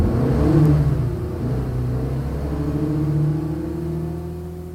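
A car pulling away: a loud, low engine rumble that swells as it revs, then settles into a steady drone for several seconds, with no voices.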